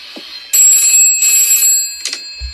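A telephone rings in two high, steady electronic bursts, then starts a brief third ring that cuts off.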